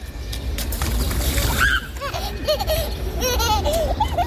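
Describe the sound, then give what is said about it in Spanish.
A child laughs in bright, repeated giggling bursts while a puddle is stepped in, splashing and spattering water. Both sounds are lively and fairly loud, with the laughter growing more frequent toward the end. “Ese sonido de un niño riendo, de ese charco siendo pisado, de verdad, eso sí que es poesía”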